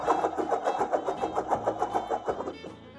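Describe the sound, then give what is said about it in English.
A globe being spun gives a rapid, even ticking rattle of many regular clicks that keeps pace for a couple of seconds, then fades out at the end. “So let me spin the globe to see where in the world we start this week's show.”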